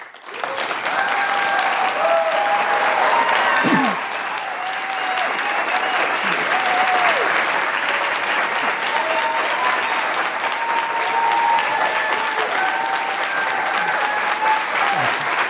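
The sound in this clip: Sustained applause from the debate audience welcoming the candidates at a vice presidential debate, a steady, dense wash of clapping that holds at an even level for the whole stretch.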